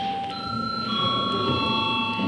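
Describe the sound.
The chairman's bell rings in parliament, a steady, sustained metallic tone that carries through the whole moment without any talk over it.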